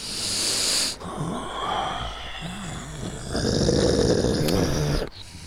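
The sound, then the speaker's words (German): Snuffling sniffs at a flower: a few breathy, snorting inhalations and nasal snorts in short bursts, fairly loud and close, with no talk over them. “Was schnüffeln wir da? Sind das irgendwelche Drogen?”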